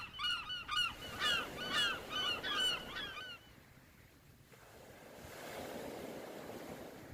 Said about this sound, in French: Voilà, on est arrivé. Je vois la mer au loin.